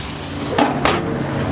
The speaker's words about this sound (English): Listen to the sounds of the burger grilling.